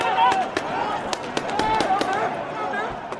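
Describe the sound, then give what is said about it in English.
Many sharp pops from pepper ball rounds fired by riot police during protests on Hong Kong streets crack out in an irregular volley, with voices and shouting heard throughout. “That's the sound of pepper ball rounds being fired by riot police.”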